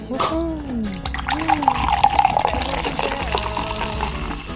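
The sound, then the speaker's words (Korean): Fizzy liquid splashing as zero-sugar cola is poured into a glass, a soft continuous hiss and trickle running beneath talking voices throughout. “톡 쏘는 콜라 따라 드립니다”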